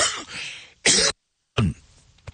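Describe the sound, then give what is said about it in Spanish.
Coughing from someone coming down with a cold: two sharp, loud coughs with a short gap between them. A rougher, throaty sound comes before them. “me estoy medio agripando un poquito, me disculpo si a veces toso”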